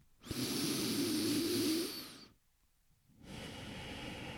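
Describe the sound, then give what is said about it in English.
A deep breath drawn in during a guided breathing exercise: a soft, airy hiss lasting about two seconds, then a short silence before another breath begins. “Begin by just taking a nice deep breath.”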